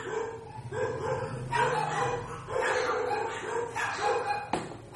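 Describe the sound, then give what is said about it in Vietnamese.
A dog barks repeatedly in uneven yips and bow-wows, some with a whimpering edge, moderately loud over a low background hum, with no talk. “Chó cắn ma cái gì em?”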